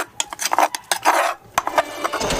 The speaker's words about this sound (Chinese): 看这木头还挺重的。那韦师傅，咱们用这种传统的冲法来冲辣椒，它味道是不是也会有不一样？